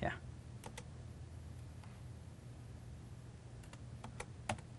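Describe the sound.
Soft keystrokes on a computer keyboard accompany a software demo of typing task keywords. A few scattered, faint clicks come in small clusters over a low, steady hum.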